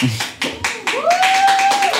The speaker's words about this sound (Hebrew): אתם יכולים למחוא לו כפיים בשבילי?